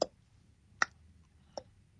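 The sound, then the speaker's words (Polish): A voice imitates a computer metronome click track with three sharp, evenly spaced mouth clicks. They are faint and heard alone against a quiet background. “To brzmiało tak jak tak zwany klik. Jeżeli słuchają nas jacyś muzycy, to oni dobrze znają ten dźwięk. To jest taki metronom komputerowy, który pozwala równo grać.”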